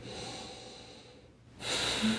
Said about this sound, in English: Big deep breath.